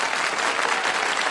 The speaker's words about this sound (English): I have to give you separate applause just for Mama Gloria.